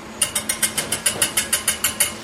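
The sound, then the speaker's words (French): Egg whites beaten by hand toward stiff peaks with a whisk: rapid, even strokes, each a bright clicking scrape, in a steady rhythm with no talk. “Et ensuite, on va monter les blancs en neige. À la main.”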